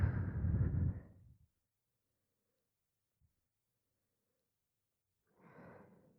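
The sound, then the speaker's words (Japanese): A slow, soft exhale through the mouth during a guided breathing exercise. The breathy rush fades out over about a second, followed by a quiet pause and then another softer breath near the end. “口から吐く。”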